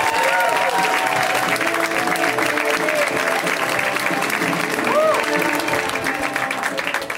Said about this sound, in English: Let's hear it right now for Mike Kaplan, you guys. Give it up for Mike.